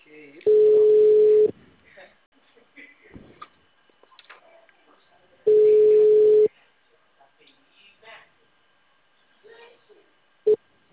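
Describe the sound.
Telephone tone after a dropped call: two steady mid-pitched beeps, each about a second long and separated by a few seconds, with faint scattered sounds between them.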